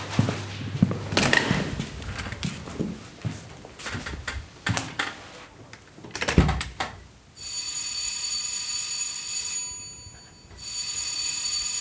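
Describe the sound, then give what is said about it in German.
A theatre bell signal, the third ring calling performers to the stage. A sustained, bright electric ringing starts after several seconds of clattering knocks and rustling, breaks off briefly, then rings on to the end. “War das schon das letzte Zeichen? Das war das dritte Klingelzeichen.”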